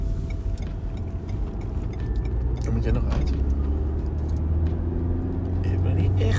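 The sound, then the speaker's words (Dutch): A car driving on the road, heard as a steady low engine and tyre rumble that holds at an even, moderately loud level throughout. “En ik ben nu ondertussen een half uur aan het rijden.”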